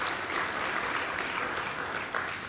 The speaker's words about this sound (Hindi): जो करेंगे वो हाथ उठाओ, जरा जोरदार ताली बजाइए इनके लिए